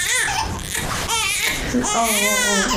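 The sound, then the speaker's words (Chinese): A hungry infant cries in loud, continuous wails with a strained, wavering tone, the sobs rising and breaking between breaths. “快给孩子吃一口啊！别让他这么哭啊。”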